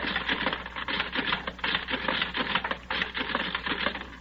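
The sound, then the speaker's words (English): Punch cards running through a card-classifying machine as it sorts them by matching personality, making a rapid, steady mechanical clatter that rattles on without a pause. “Well, I put Judith's card in the classifying machine, set the controls for a matching personality. Then I take all the cards of the men I have and run them through the machine like this.”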